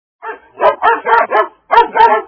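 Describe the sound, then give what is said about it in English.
Arctic dogs barking in a loud, rapid series of about seven barks, evenly spaced at first, then a short pause before the last two, with no voices. “The Arctic dogs are brown now. Their hair sticks up. Their eyes are red. They bark a lot.”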